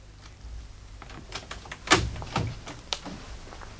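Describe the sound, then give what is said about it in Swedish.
A door being unlocked and opened: a few dry mechanical clicks and clacks from lock and latch, the sharpest knock near the middle, with no voices. “Var snäll och öppna dörren.”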